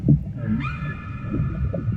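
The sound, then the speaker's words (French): A female whale calls with a tonal cry that sweeps upward and then holds as a sustained harmonic note over a low, rumbling background. “La baleine qui m'a appelé, c'est une femelle. Elle a mon âge.”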